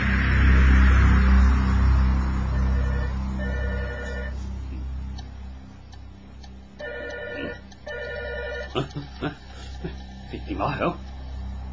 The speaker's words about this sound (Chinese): 明明掹咗个插苏先上床瞓嘅，个电话仲会响